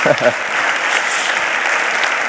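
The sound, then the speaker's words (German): A short burst of speech gives way to sustained applause from an audience honouring staff, a loud, dense, even clapping that continues to the end. “Vielleicht können wir mal allen Mitarbeitern einen kräftigen Applaus geben.”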